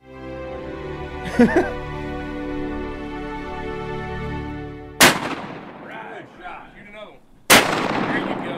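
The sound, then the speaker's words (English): The Bow Whoop, a huge antique duck gun, is fired while duck hunting: two loud booming blasts, each a sharp crack followed by a decaying rumble, over a steady low background hum. “The Bow Whoop is currently owned by Ducks Unlimited. They took it hunting in 2016 and got some of the only footage ever of the Bow Whoop being fired.”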